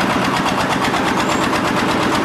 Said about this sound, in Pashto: دلته کارګر په سړې هوا کې په کار کولو لګیا دي، ځینې بیا د ماشین په وسیله لوړ پورته خښتې پورته کوي.